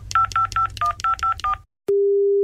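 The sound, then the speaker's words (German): Telephone keypad tones sound as a number is dialed: seven short, evenly spaced beeps, then a brief silence and a single steady, unbroken line tone. “Moment, ich wähle mal.”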